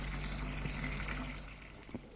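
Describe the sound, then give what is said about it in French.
Shower water runs steadily over a bathtub, a continuous soft rushing hiss with no talk and only slight changes in level. “Après avoir passé un bon moment sous la douche,”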